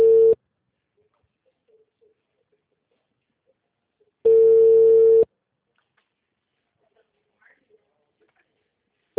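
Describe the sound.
Ringing tone of an outgoing mobile phone call: a steady electronic tone, with one full burst of about a second between clipped bursts at the start and end, separated by silence.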